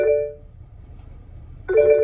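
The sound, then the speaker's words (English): Phone ringtone signalling an incoming call: a bright, steady electronic tone sounds at the start, stops for just over a second, then rings again near the end. No talk is heard. “Phone call. I have to take it later.”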